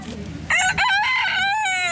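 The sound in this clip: A rooster crows on a farm, one long, loud cock-a-doodle-doo rich in ringing harmonics that starts after a brief noisy lead-in and holds to the end.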